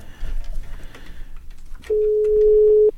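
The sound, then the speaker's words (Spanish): A single steady ring tone sounds on a telephone line for about a second as someone is redialed. It follows a stretch of low, rumbling background noise. “O si ya está despierta, pues a lo mejor que esté retirada del teléfono y no alcanzar a contestar, ¿no? Pero márcale de nuevo.”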